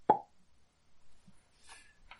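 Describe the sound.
A voice imitates a skull popping with a single short, sharp plop at the very start, followed by near silence and a few faint small noises.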